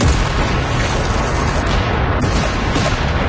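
Cannon batteries firing at will in a siege bombardment, heard as a loud, continuous barrage of dense booms and rumbling blasts that merge into one another without distinct gaps.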